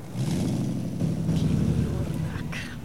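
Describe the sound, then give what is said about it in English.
A convertible car with its top down drives off. Its engine gives a steady, low rumble that holds throughout and eases slightly near the end. “Sitting in the driver's seat, Clay pulls down the top of the car. He smiles at Whale as they drive off.”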